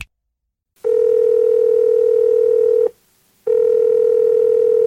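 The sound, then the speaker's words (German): Telephone tone as a mobile phone call is dialed: a steady, clear single-pitch tone sounds for about two seconds, stops briefly, then resumes. “Herr Dembowski, gut, dass Sie rangehen. Endlich mal. Endlich ist das Mobiltelefon aufgeladen.”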